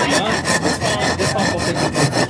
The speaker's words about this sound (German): Bei den missionsärztlichen Schwestern konnte man am Frieden feilen. Es galt, aus einem Ytongstein den Schriftzug Frieden herauszuarbeiten.